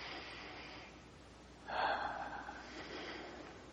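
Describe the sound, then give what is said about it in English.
A single deep breath drawn in with eyes closed during a guided relaxation exercise: one soft, rushing inhale that swells suddenly and then fades into a quiet hiss. No one speaks. “Let's close our eyes. We just take a comfortable breath.”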